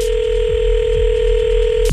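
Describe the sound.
Telephone ringing on an unanswered call to Canada: a steady, loud ring tone holds without a break, then cuts off abruptly just before the end.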